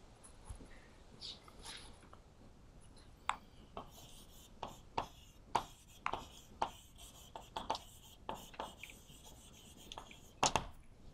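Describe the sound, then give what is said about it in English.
Scratchy strokes of a pen or chalk as a lecturer draws a picture during a maths lecture on solid tori, with many short, faint scraping marks at an uneven rhythm and no talk. “Because I draw this picture.”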